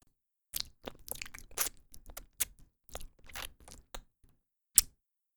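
Wet licking and mouth sounds come in a close-up intimate roleplay. Many short, quiet smacks and slurps fall in an uneven run with brief silent gaps, ending in one sharper click, with no talk.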